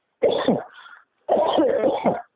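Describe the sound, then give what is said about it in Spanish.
Coughing during a spoken interview comes in two loud, rough bursts separated by a brief pause. The first fades out and the second runs longer. “Perdón, me agarro tos.”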